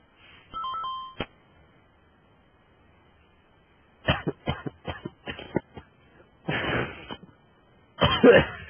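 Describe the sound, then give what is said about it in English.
A person coughs after inhaling cinnamon, a string of irregular harsh coughing bursts that come in quick clusters after a quiet stretch, with a short tonal electronic beep near the start. “coughing up cinnamon”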